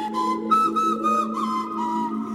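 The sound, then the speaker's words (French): Breathy whistling from a prehistoric-style whistle made from a reindeer toe bone: a few short tones run together at a steady level with no other sound. “Voilà comment nos paléomusiciens ont fabriqué les premiers sifflets.”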